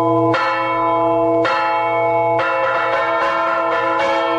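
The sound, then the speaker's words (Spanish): Church bells ringing in the villages of the Las Loras Geopark around Sotillo de la Ribera. Loud, resonant strikes sound alone: a few spaced peals, then quicker, overlapping strokes that keep the ringing dense. “en todos los entornos del Geoparque de Las Loras van a escuchar un montón de toques de campanas”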